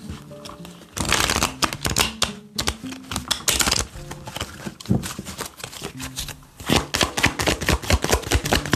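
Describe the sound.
Tarot cards are shuffled to draw an advice card, with many quick, crisp riffling bursts that come in uneven runs and brief pauses.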